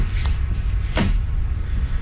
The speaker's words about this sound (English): Can you open that door? I want to see what's inside the back here.